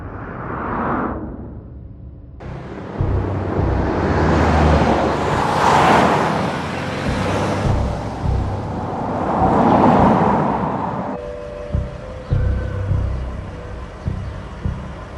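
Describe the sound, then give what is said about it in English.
A car drives across a bridge, its road noise and passing traffic rising and fading in broad, rushing whooshes, with a steady rumble throughout. “He drives across a bridge.”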